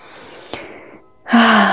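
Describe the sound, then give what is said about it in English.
Deep breathing from a person settling into calm, heard as two airy, breathy rushes of air separated by a brief pause, the second one louder and fuller, with no talking. “I was just taking some deep breaths right now, just basking in this present moment.”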